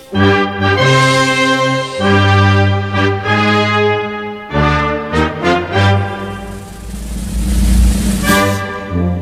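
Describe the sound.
A brass band plays a processional march: loud, sustained, chord-rich brass lines with accented notes and swelling phrases that run without a break. Percussion hits rise near the end, and no voices are heard.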